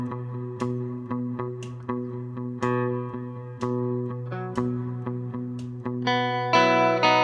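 Electric guitar with effects plays a chord part in upstrokes: many short, rhythmic chord stabs over a sustained tone, ending on a brighter, fuller chord.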